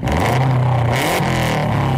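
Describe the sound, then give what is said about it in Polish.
A 280-horsepower rally car engine revving, a loud, continuous roar with a gritty low rumble that wavers slightly in pitch. “Tak brzmi 280 koni mocy samochodu rajdowego Kajetana Kajetanowicza”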